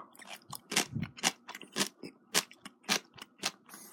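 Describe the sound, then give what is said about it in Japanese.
Crunchy orange fukujinzuke, a Japanese pickle, is chewed in a steady series of sharp, crisp crunches at a regular bite-by-bite rhythm, fairly close and clear with no talk over it. “そして、福神漬けいただきます。”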